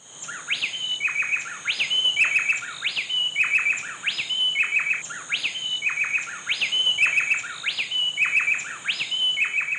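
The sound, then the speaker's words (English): Two bay wrens singing a call-and-response duet, bright, clear whistled phrases repeating many times in a quick, steady rhythm, the birds' parts interlocking closely with no other sound. “Dr. Nigel Mann recorded these two bay wrens doing a little call and response”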